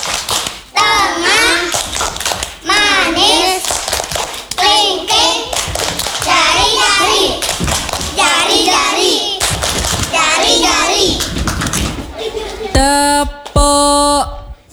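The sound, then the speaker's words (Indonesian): Children's voices chant in rhythm during a finger-clapping game, light, quick claps and taps falling in time with the chant in repeated phrases, with a more sung, tonal passage near the end. “Tepuk jari. Satu, dua, tiga. Tepuk jari, jempol, telunjuk.”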